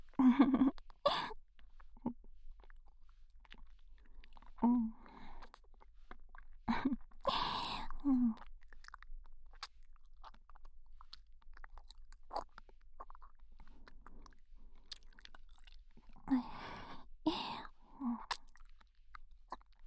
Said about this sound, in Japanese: こういう耳元で咀嚼音響かせてあげるのも